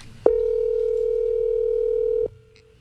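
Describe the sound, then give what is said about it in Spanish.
Ringing tone on an outgoing telephone call: one long, steady, mid-pitched electronic tone that holds evenly for about two seconds, then cuts off abruptly, leaving a faint line hum. “Ahí está timbrando.”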